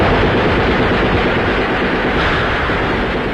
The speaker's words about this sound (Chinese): 巴勒托杰的酥油火把和枪声为号